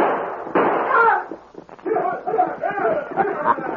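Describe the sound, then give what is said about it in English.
Gunshots ring out at three Apaches on a trail in a radio-drama Western, a few sharp bangs tangled with talking voices. “Have your gun ready, Jake. Right. They're close enough. Now let them have it.”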